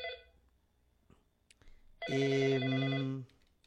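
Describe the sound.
An incoming call sets a telephone ringing in a single loud, buzzy electronic ring burst lasting just over a second, after a few faint, scattered sounds.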